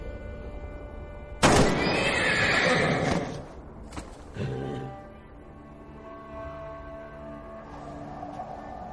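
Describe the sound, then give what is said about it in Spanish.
A dying horse whinnies in a snow-covered abandoned city: one loud, harsh, prolonged neigh breaks out abruptly, followed by quieter, shorter strained sounds that fade away. “Caminando se acerca al caballo que está agonizando.”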